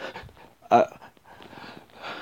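Heavy, ragged breathing: a few airy breaths, with one sharper, louder intake near the start and softer, rough breaths after it, no talk.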